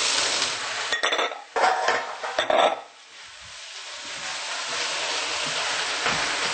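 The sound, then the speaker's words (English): Stirring kale with onions and ginger in a pan: a few sharp clinks and scrapes of a utensil against the pan come in a burst early on, then give way to a soft, steady hiss. “We're going to stir until the leaves are a little bit wilted. So you just mixed the onions and the ginger up with the kale”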